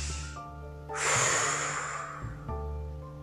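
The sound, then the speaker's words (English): One deep, slow breath, a broad airy rush that swells and fades over about a second, set against a soft, steady tonal background. “Take 3 deep breaths and imagine this now.”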